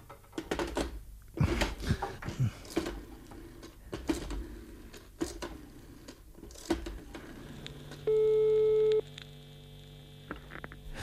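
Telephone line tone after a cut-off call: crackling line noise and irregular clicks give way to one loud, steady tone lasting about a second, followed by faint hum.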